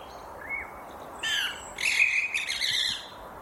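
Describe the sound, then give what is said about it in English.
House sparrows chirp, starting with a short call, then a busier run of harsh, repeated chirps. The calls are fairly faint over a soft, steady background, with no voices. “The sounds that sparrows make are not really one of the bird sounds that we think are especially pretty or aesthetically pleasing.”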